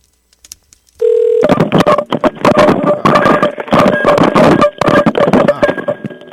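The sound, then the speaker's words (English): Telephone dialing on an outgoing line: a steady tone begins, then a rapid run of loud dialing tones and clicks follows without talk. “Get our outgoing line and see what Kyle is up to.”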